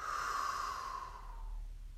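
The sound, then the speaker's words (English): A long, soft breath during a slow guided breathing exercise: a single airy exhale that starts fairly strong and gradually fades away, with no voices. “Breathing in and breathing out. Breathing in and breathing out.”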